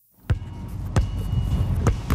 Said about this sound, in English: Oh, just the rim, just the rim.